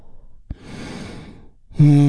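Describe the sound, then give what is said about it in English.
A deep breath drawn in and slowly released during a guided meditation: a brief catch, then a long, soft, airy rush lasting about a second, after which a voice starts speaking. “And we do that by taking a big, deep, healing breath. Right now, here we go. And release.”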